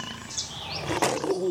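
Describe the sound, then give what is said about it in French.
A lion roaring in a jungle: a short, growling roar that swells to a sharp, harsh burst midway, then trails off in lower rumbling tones. “I'm in the Calabrianal jungle. I'm looking for a super lion. Oh, there it is.”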